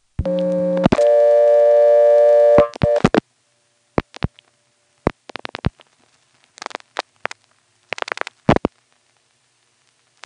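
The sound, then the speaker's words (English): A call to the 114 telephone repair service goes through the exchange: a short low tone, then a steady buzzy tone of about two seconds, followed by scattered switching clicks and relay clatter. “But anyway, here is 114 repair service going through normally from here.”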